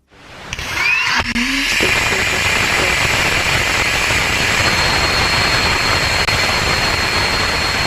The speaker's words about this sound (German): That is a healthy Rutherford engine startup on the second stage now that we are clear of first.